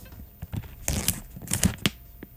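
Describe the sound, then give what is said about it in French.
Resealable aluminium foil packaging crinkles and tears as it is unwrapped, in faint, irregular bursts of rustling that grow busier in the middle before thinning out. “Je trouve que ça fait le même bruit de semaine en semaine. C'est ça, on dirait qu'on a des emballages de la même sorte. Mais bon, c'est du papier d'aluminium, évidemment refermable.”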